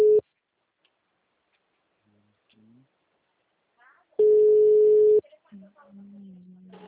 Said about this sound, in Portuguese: Ô, caiu a ligação, amigo. Oi, ligação caiu. Eu tô retornando.